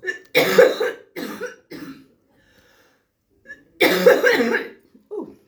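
Harsh coughing: a quick run of several loud, rough bursts, a pause, then another strong cough and a short final one.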